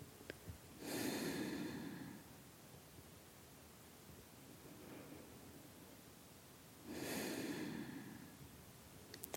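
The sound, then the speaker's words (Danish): Slow, deep breaths taken with eyes closed during a guided relaxation exercise, each a soft airy rush. Two fuller breaths stand out, with a fainter one between them, all quiet against a low hiss. “Og hvis vi nu prøver, at du lukker øjnene, som vi startede med, og trækker vejret et par gange igen.”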